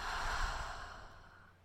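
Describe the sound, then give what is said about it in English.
A slow, deep breath in and out during a relaxation exercise, heard as a soft, airy rush that swells and then fades away over about a second and a half, with no talk over it. “Deep breath in and out.”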